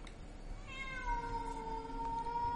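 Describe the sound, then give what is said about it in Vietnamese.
A cat meowing outside, one long drawn-out tonal meow that holds a fairly steady pitch after a slight initial dip, heard over a constant background hiss. “nghe tiếng của con mèo kêu”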